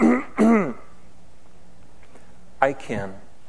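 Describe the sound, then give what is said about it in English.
A man's voice imitating throat clearing: two short, rough vocal bursts, a pause, then two more. “they hear God clear his voice. His throat.”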